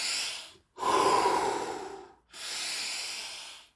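Deep belly breathing, filling the lungs and pushing the air out. Three long, loud, breathy rushes of air are separated by short silences, each swelling and then tapering off.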